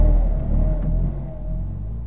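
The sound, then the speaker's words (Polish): Steady low rumble of a brand-new Maluch small car engine idling as it leaves the assembly line with zero kilometres on the odometer, a continuous deep drone with a faint humming tone and no talking. “Ach, ten warkot na końcu. Warkot tego silnika.”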